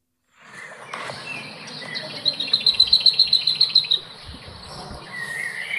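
Lesser whitethroat song, played loudly: a fast, even, high-pitched rattle of about a dozen repeated notes in a short burst, over a faint background hiss.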